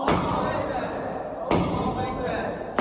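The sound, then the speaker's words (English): A man swings a sledgehammer down onto iPhones, making three sharp, loud smashing impacts spaced over a few seconds, each followed by a short decaying rattle. “In this social media video, a man wielding a sledgehammer destroys what appear to be iPhones.”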